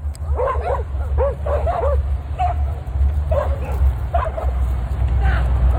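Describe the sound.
Several dogs, let off their leads, bark and yip excitedly as they chase down a man. High yelps and barks come in quick bursts over constant outdoor noise, with a man's voice shouting underneath.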